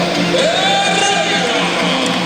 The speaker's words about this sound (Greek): Το μεγάλο χειροκρότημα για τον σπουδαίο Αργεντινό στάρ Ρομπέρτο Περέιρα, διεθνής Αργεντινός, συμπαίκτης του Μέση.